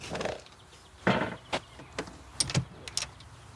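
A door of a small rented house is opened, giving a few quiet clicks, knocks and light rattles spaced out unevenly, with no talk.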